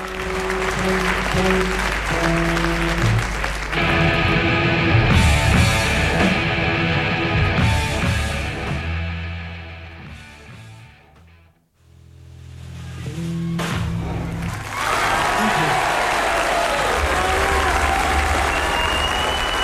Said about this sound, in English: Those were the days when the audience sat in the Paris cinema and didn't stand up on their feet and went quite crazy there, right?